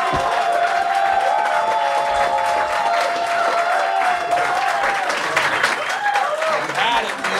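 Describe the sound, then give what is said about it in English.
Loud standing ovation from a live audience, with dense applause mixed with cheering and whooping voices that keeps up steadily from start to finish. “What a round. The audience is on their feet, standing really ovation. They're losing their minds right now at home, everyone.”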